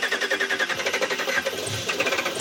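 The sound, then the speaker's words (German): A prototype pickup truck engine running on pure ammonia chugs with a rapid, rough, steady pulse, loud and alone for the whole stretch, without any voices. “Der Motor eines Pickups startet.”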